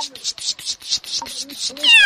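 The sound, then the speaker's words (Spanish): A lost kitten meows a few times, ending with a clearer, higher meow, while a person talks over it. “se perdió un gatito. Ahí anda.”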